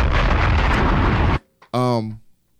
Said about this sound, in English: bombs!